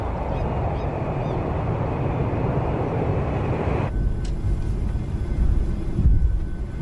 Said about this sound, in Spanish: El avión despega sobre la gran ciudad de Buenos Aires.